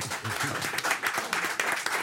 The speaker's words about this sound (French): On applaudit Tintin.